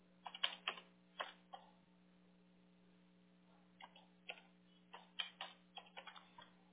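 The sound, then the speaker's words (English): Typing on a computer keyboard: a burst of quick key clicks, a pause of about two seconds, then another run of clicks, all over a low, steady hum. “let me type in.”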